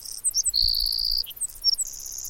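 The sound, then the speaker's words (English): Savannah sparrow song in a Palouse grassland prairie: a few thin, very high chips lead into a long, sustained buzzy trill. More high chips follow, then a final buzz, all fairly faint against a quiet background. “Some grassland birds, like the savannah sparrow,”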